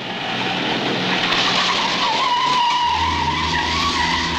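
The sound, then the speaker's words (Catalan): A car speeds off at full throttle with skidding, squealing tyres, a loud continuous engine roar with a high, wavering squeal running through it, no voices. “i fot el camp prement el gas a fons.”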